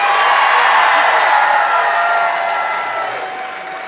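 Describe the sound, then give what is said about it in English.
A live stage-show audience applauds and cheers in a dense, steady roar of clapping and shouts, easing off slightly toward the end. “We know how to make noise in Philadelphia.”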